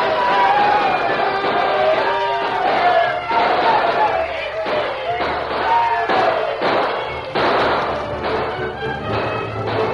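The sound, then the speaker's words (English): Men cheering and shouting in a Western radio drama as cavalry troopers arrive: loud, overlapping whoops and hollers in rough surges that carry on throughout. “The men cheered themselves hoarse. They forgot how exhausted they were when they saw those troopers run off the Indians.”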